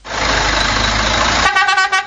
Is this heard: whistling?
no